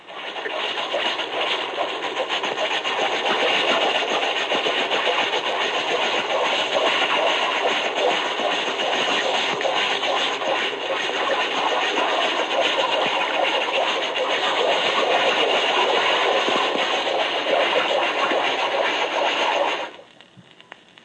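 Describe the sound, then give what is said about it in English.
Propeller noise from a small submarine turning at 150 RPM, about 3 knots: a steady, dense churning hiss that holds at an even level for roughly 20 seconds, then cuts off abruptly. “The correct RPM for the example was 150. The sub was a small type which makes about 50 RPM per knot. 150 divided by 50 gives an approximate speed of 3 knots.”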